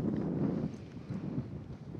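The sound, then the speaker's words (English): Wind blowing across an open outdoor space, a steady low, rumbling rush that buffets and swells slightly over two seconds, with no voices or other clear sounds. “Feel the wind, the breeze, with each breath coming in through your skin”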